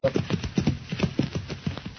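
Horses ride along a trail, their hooves clip-clopping in a quick, uneven run of many thuds with no pause.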